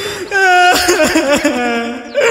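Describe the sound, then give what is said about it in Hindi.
A person cries in distress, a loud, wavering wail that rises and falls in pitch in long, sustained sobs with brief catches in between. “ए भाई रुको, अरे काहे रोता रहू”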